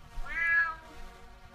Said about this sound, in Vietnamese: tiếng mèo kêu bên ngoài tiếp tục vang lên